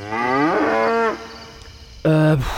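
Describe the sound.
Cattle mooing: a long, loud lowing call that climbs in pitch and then holds steady, followed after a quieter pause by a second, shorter moo that ends abruptly, with no talking.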